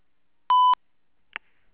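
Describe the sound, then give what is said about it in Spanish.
A voicemail recording tone gives one short, steady, mid-pitched beep, followed by a faint click in otherwise near silence. “Después de un tono, grabe su mensaje.”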